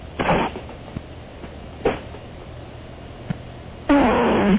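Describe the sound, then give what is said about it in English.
Fart made on cue by a caller with the phone held to his backside: a few short, thin, phone-filtered blasts, then a longer, louder rumbling one at the end. “So you can fart on cue? I can fart on cue. Do it right now. You want me to fart right now?”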